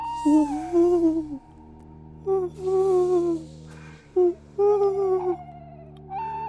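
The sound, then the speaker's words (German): A small owl cries from poplar trees beside a sports field: several wavering, tonal wails of mid pitch, separated by short pauses, sounding over a steady low hum. “und von den Pappeln am Sportplatz her ein Käuzchen schreit”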